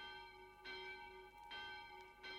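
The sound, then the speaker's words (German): A thin, sharp, clanging bell, the bell rung for a condemned prisoner, starts to toll. A few bright strikes land at even intervals over a continuous metallic hum, and the overall level is quiet. “Nun begann auch die Malefikantenglocke zu läuten, dünn, scharf, scheppernd.”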